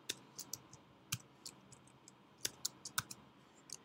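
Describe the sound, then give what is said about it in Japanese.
Typing on a computer keyboard to enter a WordPress category name in half-width characters: many faint, irregular key clicks and taps, with no voices. “はい。半角で、こういった形で入力します。”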